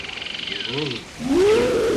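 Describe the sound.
A tiger roaring at night near a campfire where woodcutters sleep. A long, rising growl fills the second half. Before it come a few shorter warbling calls over a steady, high, pulsing chirr.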